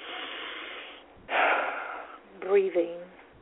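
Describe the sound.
A person takes audible breaths while pausing between paragraphs of reading aloud: two moderately loud, airy breaths, then a brief voiced sound at the end.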